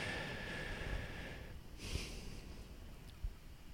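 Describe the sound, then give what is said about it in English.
A person draws a slow, deep breath that is soft and airy, with a brief stronger sniffing push partway through and a faint snort-like catch near the end. No talk is heard over it. “I just took a very deep breath there for a very good reason”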